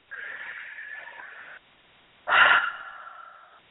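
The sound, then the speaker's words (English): A person breathes slowly during a guided breathing exercise: two long, airy breaths separated by a short silence, the second louder, opening with a strong rush of air and then tapering off. “And just breathe.”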